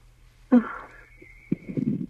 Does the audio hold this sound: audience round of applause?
no